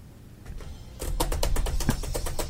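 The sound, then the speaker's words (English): Keyboard typing while booking an optometrist appointment: after a quieter opening second, a brisk run of many sharp keystroke clicks follows in a quick, fairly even rhythm, with no talk over it. “Hang on. I'm going to make an appointment right now.”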